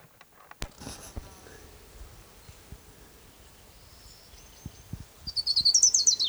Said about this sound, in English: Orange Crown Warbler number one.